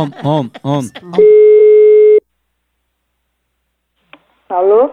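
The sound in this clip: A phone call's ringing tone sounds once as a single steady, mid-pitched tone lasting about a second. Silence and a soft click follow. People talk before and after it.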